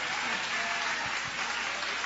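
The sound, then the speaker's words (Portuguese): A church audience applauds, a dense and even wash of clapping that holds steady from start to finish without pause. “E quem se alegra pela presença de Jesus aqui conosco, levanta a mão então e dá uma salva de palmas para Ele.”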